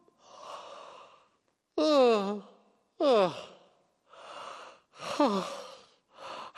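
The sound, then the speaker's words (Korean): A person yawning: several breathy, airy exhalations alternate with drawn-out voiced yawns whose pitch slides downward, each separated by short pauses. “하품”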